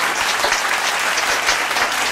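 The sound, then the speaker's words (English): Church audience clapping hands during a worship service, a dense, steady stream of many hands at moderate loudness, continuous throughout. “Clap your hand, the Lord Jesus Christ.”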